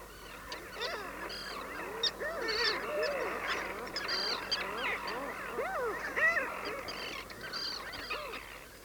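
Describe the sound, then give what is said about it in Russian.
A crowd of birds, mostly goose-like honks and squawks, many overlapping calls in a busy, continuous chorus. “Ба, сколько здесь пернатого народа! Одни летают, другие сидят по гнездам, кладки выхаживают.”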